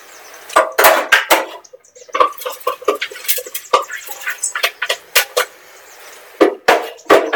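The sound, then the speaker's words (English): Food-processed pecan nuts and buckwheat kernels are tipped into a dry mix bowl, making many irregular rattling clicks and light taps that come in uneven clusters of varying loudness. “the now food processed pecan nuts and the buckwheat kernels. So they're all going now into the dry mix bowl.”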